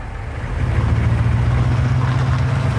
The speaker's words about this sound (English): as his Humvee drives away